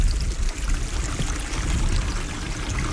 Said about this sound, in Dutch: Overal watergeluiden door de vele kanalen, pijpen en overloopjes die nodig waren voor de modellen.